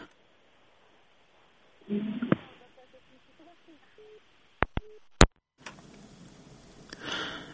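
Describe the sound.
Telephone line tones sound after a caller's connection drops on a call-in radio health program. There are faint, low, brief tones, then three sharp clicks on the line, followed by a rush of hissy line noise.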